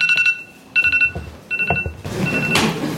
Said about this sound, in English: Sorry, y'all, it's not my phone.